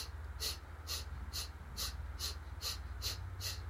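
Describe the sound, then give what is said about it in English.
Eight forceful exhales through the nose during a breathing exercise, short sharp bursts in a quick, even rhythm, faint and heard alone. “And then we're going to forcefully inhale through the nose. Pardon me, forcefully exhaling through the nose.”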